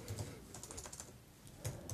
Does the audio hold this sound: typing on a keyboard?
yes